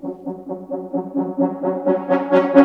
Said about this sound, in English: and Century Ostinato, which sounds like this.